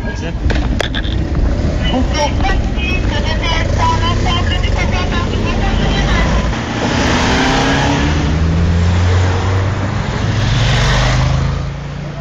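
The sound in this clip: A car engine revs hard as it speeds away, accelerating, its pitch climbing steadily over the final few seconds above a loud, continuous rumble.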